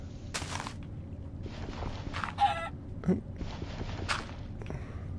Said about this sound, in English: All right, come here, chicken.